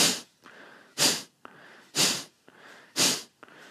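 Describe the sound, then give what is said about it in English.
Nasal breathing, air exhaled and inhaled through the nose in a steady rhythm: four loud, airy rushes about a second apart, alternating with softer breaths between them, with no talk. “Exhaling and inhaling from the nose.”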